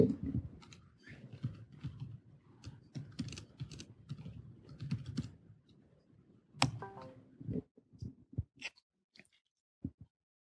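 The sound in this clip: Faint rapid typing on a computer keyboard, irregular bursts of small clicking keystrokes that thin out into sparser, separate taps toward the end.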